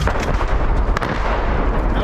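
Artillery fire in a war zone where civilians are fleeing the fighting: a dense, loud, continuous low rumble with one sharp crack partway through.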